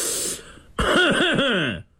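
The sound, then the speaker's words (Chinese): A voice imitating coughing, acted out for a military commander on horseback surveying the ground from a high slope: a breathy hiss, then a voiced, rasping run of several quick throat bursts, loud and alone. “咳嗽了几声”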